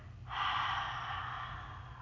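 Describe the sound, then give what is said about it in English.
A long exhale through the mouth during a guided breathing exercise: a steady, soft breathy hiss that starts abruptly and holds for nearly two seconds before easing slightly, with no talk over it. “Inhale through our nose. Hold. And exhale through our mouths.”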